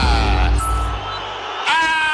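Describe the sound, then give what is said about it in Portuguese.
Palmeiras football fans boo their team at the end of a scoreless first half against Internacional: a loud, sustained crowd roar with a low drone, swelling again near the end. “Apita o árbitro e o torcedor do Palmeiras vaiando a equipe. Não gosta do que vê nesse primeiro tempo, 0-0.”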